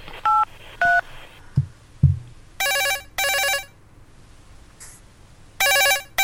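Touch-tone telephone dialing and ringing: two brief dialing tones and a couple of soft thuds, then a phone ringback sounding in paired ring bursts, two pairs separated by a pause.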